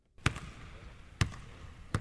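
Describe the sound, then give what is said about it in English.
A basketball bounces three times on a court as a Panathinaikos player shoots baskets before practice in Greece, each bounce a sharp, clear thump with a short echo, spaced unevenly over a quiet background. “Mike Batiste watches as a teammate shoots baskets before practice.”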